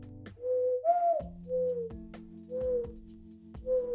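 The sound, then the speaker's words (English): A human voice imitates a mourning dove's call with a soft, hollow series of cooing notes, a few short mellow phrases with the second note pitched slightly higher, then a steady spaced rhythm. “Bird sound. So I can do like that. Or I can do a mourning dove.”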